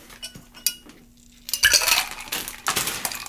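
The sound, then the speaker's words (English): Ice clinks and rattles against a mixing glass as a spoon stirs a gin, vermouth, bitters and maraschino liqueur cocktail. Light scattered clinks come first, then a busier, louder run of jangling ice. “So let's put ice. We're going to stir this.”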